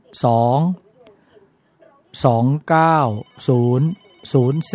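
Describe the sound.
Telephone ringing with an incoming call on a call-in phone line: five loud, tonal ringing bursts, each under a second, separated by short pauses.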